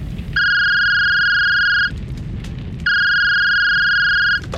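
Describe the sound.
A telephone number is dialed, heard as two long, steady electronic tones of equal pitch separated by a short pause.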